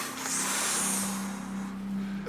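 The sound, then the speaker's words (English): A deep breath drawn in: one long, airy inhale that holds steady for about two seconds, with a low, even hum beneath it. “Take a deep breath in.”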